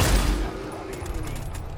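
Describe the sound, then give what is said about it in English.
Video game gunfire: a loud, low, booming burst at the start, then a fainter ringing tail with a few short, sharp cracks. “All right, I'm about to shoot.”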